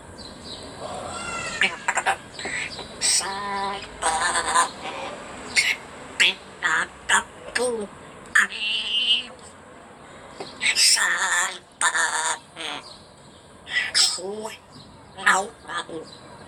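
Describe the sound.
An African grey parrot sings a pop song, mimicking human singing with a long series of squawky, voice-like phrases and whistles in uneven bursts, loud and with no other voices.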